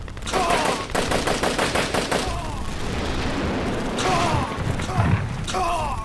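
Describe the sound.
Gunfire from a tank shooting at another tank in battle: a fast rattle of many sharp shots for about two seconds, then loud continuous rumbling noise broken by a few more bursts.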